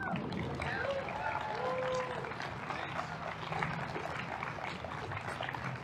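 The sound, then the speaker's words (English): Crowd applause at an anti-abortion rally in Colorado as a state representative is welcomed to speak: dense, steady clapping fills the whole stretch, with voices mixed into the noise. “I want you guys to give a warm welcome to Representative Dave Williams.”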